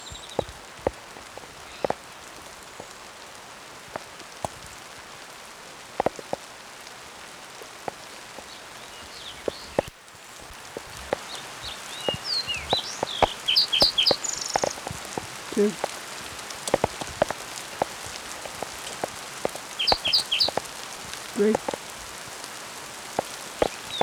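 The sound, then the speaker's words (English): Hail falling during a hailstorm, heard as many sharp, irregular ticks and taps over a steady hiss, growing denser and louder in the second half. “hailstorm in progress”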